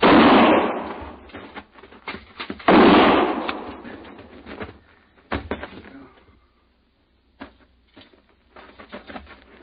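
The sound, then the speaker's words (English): Two heavy shotgun blasts ring out during a tense armed standoff, spaced a few seconds apart. Each has a long, rumbling decay, and scattered smaller knocks and thuds follow them. “that's a shotgun. Stay back, I told you.”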